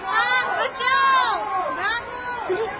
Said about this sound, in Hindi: सुनिए सुनिए, शोर भी तो इधर ही आ रहा है और लोग भागते हुए भी आ रहे हैं।